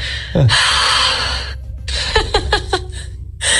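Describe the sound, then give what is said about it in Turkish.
A person imitating snoring with loud, breathy, rasping breaths, a couple of long noisy draws followed by a short run of snorting bursts. “canım nasıl horlama böyle bu?”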